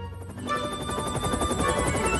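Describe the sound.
A helicopter flying, its rotor producing a steady, loud whirring with a fast, regular chopping pulse that holds constant throughout, with no voices.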